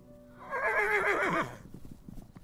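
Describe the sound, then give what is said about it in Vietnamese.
Horses neigh from afar, heralding a troop of mounted soldiers: one loud, shrill whinny wavers for about a second, then slides down in pitch and gives way to a low, rumbling clatter. “Bỗng nhiên âm thanh ngựa hí dồn dập từ xa vọng lại.”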